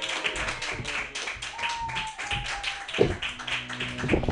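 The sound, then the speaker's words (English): Audience clapping for a comedian at a comedy club, a dense, steady patter of hand claps that continues throughout. “Put your hands together for Wyatt Frigato. Yay!”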